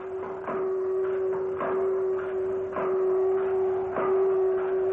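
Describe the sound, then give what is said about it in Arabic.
A large drilling rig starts up as a radio drama sound effect: a steady, loud mechanical hum carries regular knocking pulses about once a second, evenly spaced and unbroken throughout. “الله الله الله، الحفار الكبير اشتغل. سامعين؟ ايوه اهو اهو. ايوه الصوت جاي من ناحية القبلية.”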